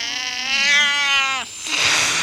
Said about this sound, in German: Es gelingt mir, den Kater zu packen und ihn ins Wohnzimmer zu tragen.